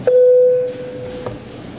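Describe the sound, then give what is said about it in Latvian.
A parliament voting bell sounds before a vote as one steady electronic tone lasting about half a second, loud and clean, then fading into a quiet hum. “lūdzu zvanu”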